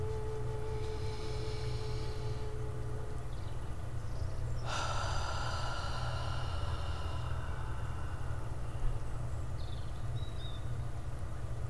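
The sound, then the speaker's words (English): A slow, deep breath during meditation, a soft airy rush that swells suddenly and fades over a few seconds, heard alone above a low, steady drone. “Second breath.”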